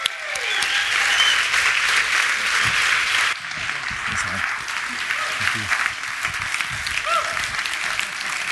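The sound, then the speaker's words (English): An audience rises and applauds to welcome Pastor Dave Barr to the stage, with loud, sustained, dense clapping throughout and speech over part of it. “Would you guys do me a favor and, and rise to your feet and welcome Pastor Dave Barr right now? Come on, guys. Come on.”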